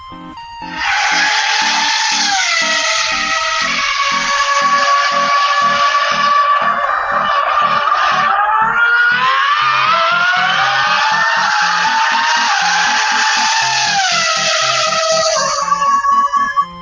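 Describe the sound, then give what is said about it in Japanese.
A man uses vocal percussion to imitate a vehicle engine driving past: a loud, sustained buzzing whine that swells and shifts in pitch over a steady pulsing beat. “こう、うん、口、ボイパでやってるんですけど、 うん。 僕ぐらいになるとどうなるかっていう。 こう走行音ってことですか？ そうですね。 こう前をこう、ファーンと横切っていくみたいな。”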